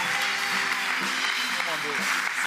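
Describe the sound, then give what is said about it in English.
Audience applause welcoming a pastor to the stage: steady, dense clapping that holds at an even level throughout, with some voices mixed in. “So put your hands together, make him really welcome.”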